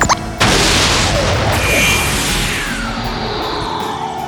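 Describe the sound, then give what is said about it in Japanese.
A sci-fi time-travel machine starting up: after a brief opening burst, a loud roaring rush hits suddenly and sustains, with sweeping whooshing tones that slowly fade toward the end. “起動プラグ装填。 高屋敷系時間移動を開始。”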